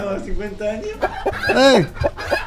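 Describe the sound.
Chicken clucking and squawking: a few short clucks followed by a longer, falling squawk, with voices around it.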